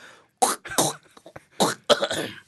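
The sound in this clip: A man clearing his throat in two main groups of rough, rasping bursts separated by short pauses. The sounds are loud and close, with no words.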